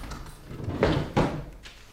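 A locked wooden desk drawer is unlocked with a key and pulled open. Two short, scraping clicks and knocks stand out over faint background noise.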